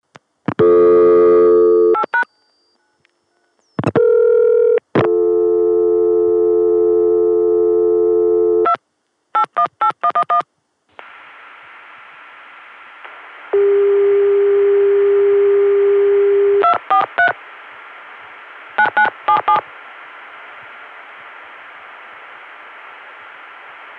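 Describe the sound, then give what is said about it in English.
Telephone tones from a Connecticut dial tone reached through a PBX and dialed onward through Chicago: steady dial tones broken by several quick bursts of dialing beeps, then a hissy line with a held tone and more short beep bursts. “getting a Connecticut dial tone via the 281 PBX, and on that, dialing the 243 code, which goes to that Cleveland operator, via Chicago.”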